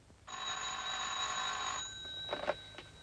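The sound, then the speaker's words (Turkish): A telephone rings inside a house: a bright, sustained electric bell trill lasting about a second and a half, then breaking off into quiet. “Tayfun Bey, Ümran Hanım arıyor. Konuşacak mısınız?”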